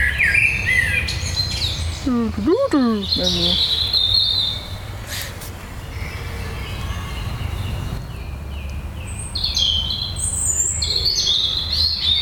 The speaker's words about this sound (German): Das ist die Amsel. Hört ihr den Unterschied? Jetzt hört man den gerade richtig gut. Das hat so ein bisschen mehr so Ziehen drin.